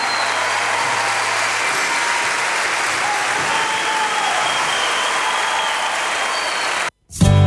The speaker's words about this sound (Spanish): Fuerte el aplauso en el bajo